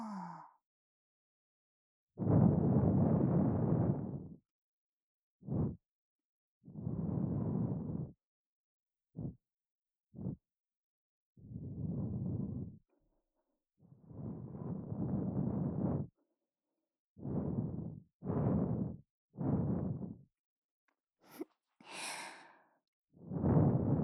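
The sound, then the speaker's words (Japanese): Soft puffs of breath blown gently into the ear: many quiet, airy whooshes of varying length, some brief and some drawn out, separated by silent pauses in an irregular rhythm. “では、先ほどと同じようにお耳の中、ふうふうってしていきます。”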